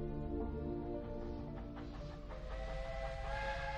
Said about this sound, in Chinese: 荒野上，一架蒸汽列车正自北向南疾驰而去